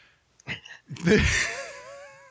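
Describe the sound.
A woman yawns: a short breathy intake, then a long, voiced, moaning exhale that trails off softly.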